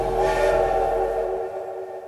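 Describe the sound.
A steam locomotive whistle sounds as the train departs: a sustained, steady harmonic blast, loud and alone, with a low rumble beneath that drops away partway through.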